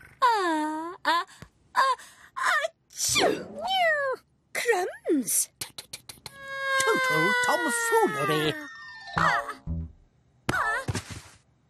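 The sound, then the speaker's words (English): A cat meows and wails repeatedly in varied, rising and falling cries, including one long drawn-out moan, with people talking around it. “The cat is making me sneeze.”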